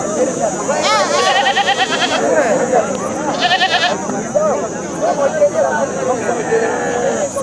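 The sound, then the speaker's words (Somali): Sheep and goats bleat over a busy livestock market in Buulafulay district, Bay region, in the days before Eid. Loud crowd voices and chatter run throughout, with clear wavering bleats rising above the din several times. “guuxa iyo sabaxanka aad maqashaan waa sayladda xoolaha degmada Buulafulay”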